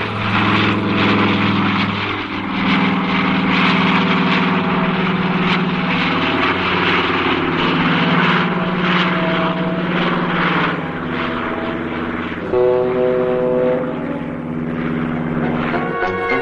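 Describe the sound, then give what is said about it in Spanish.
A small light plane flies over the Hudson River, its propeller engine making a loud, continuous drone whose pitch wavers and shifts throughout. “Mientras Peterson sigue sobrevolando el río Hudson en su avioneta”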